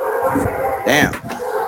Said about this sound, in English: fighting. Apparently they disagree. Are your dogs capitalists? Sorry, those are my parents' dogs.